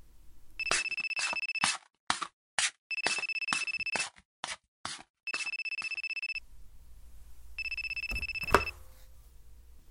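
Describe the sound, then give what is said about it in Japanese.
A mobile phone ringtone plays as bright, electronic beeping phrases that repeat in bursts with short gaps between them. A single sharp knock sounds near the end. “ん？僕の携帯鳴ってる？”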